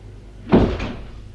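A door sound as a visitor is let in: one dull thump followed by a softer second knock-like sound, brief and moderately loud, with no voices.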